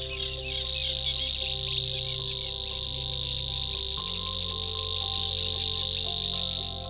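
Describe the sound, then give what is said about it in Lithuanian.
A Savi's warbler, a small bird of the reeds, delivers a continuous high, insect-like reeling that resembles grasshopper chirping. The reel holds steady and unbroken throughout, over a faint, steady low hum. “Jei jūs pasitiks štai toks žiogų čirškimą primenantis koncertas, vadinasi, išgirdote nendrinį žiogelį, mažą paukštelį.”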